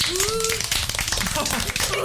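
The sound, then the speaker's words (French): Brief clapping for the winner of a points-based game, a short burst of dense claps with voices talking over it. “On peut l'applaudir.”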